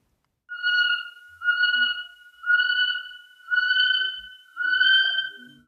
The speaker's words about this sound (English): That sound is a kiwi, one of our very special New Zealand native birds.